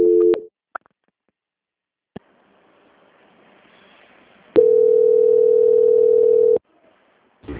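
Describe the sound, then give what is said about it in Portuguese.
Telephone line tones during a bank call transfer: a brief steady tone at the start, a few isolated clicks, then a long unbroken mid-pitched tone of about two seconds, and a new tone beginning at the very end. “eu vou transferir essa ligação para o setor de qualidade do banco que dará continuidade na sua contratação”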